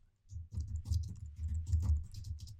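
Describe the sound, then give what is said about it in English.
Muffled typing on a computer keyboard while writing code to read command-line arguments: a steady run of soft, dull keystrokes with brief gaps. “We're going to write this code to work with”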